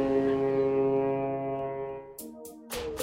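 A ship's horn sound effect gives one long, deep, sustained blast that holds steady and slowly fades, with a few brief noisy bursts at the end.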